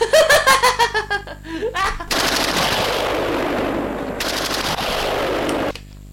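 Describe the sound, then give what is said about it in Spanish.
A gunfire bombardment sound effect: a dense, loud burst of rapid shots crackles continuously for several seconds after a brief rhythmic pulsing opening. “El bombardeo.”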